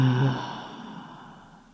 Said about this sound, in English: inhaling through the nose. And exhaling through the mouth, making an audible sound.